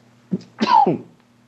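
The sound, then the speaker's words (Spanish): A person coughing, a short burst followed by a longer, harsher cough with a voiced edge, heard alone without talk. “Ay, es una tos que no me deja.”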